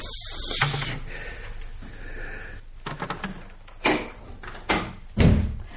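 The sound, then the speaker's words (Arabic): A safe being opened: a few metallic clicks and clunks from the lock and door, ending in heavier knocks, over faint background noise. “نقوم نفتح الخزنة.”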